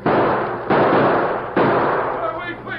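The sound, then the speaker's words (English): Gunshots ring out as masked men storm a bank in a robbery: three loud, sharp bursts, each followed by a long, noisy tail that blends into the next. “half a dozen men whose faces were concealed by bandanas rushed into the bank and started shooting.”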